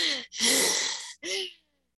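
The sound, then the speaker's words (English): A voice imitates rapid, hyperventilating breathing with three harsh, breathy gasps. The middle gasp is the longest, and the last is short and trails off. “that sounds, feels like hyperventilation. That deep, like rapid breath is counter to what we actually want him to do.”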